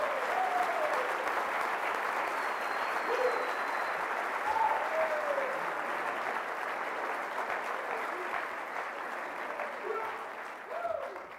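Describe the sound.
Applause from an audience welcoming a television announcer at a proclamation ceremony: a dense, steady clatter of many hands that lasts over ten seconds and eases slightly toward the end.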